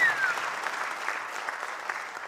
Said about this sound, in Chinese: 来感谢大家的掌声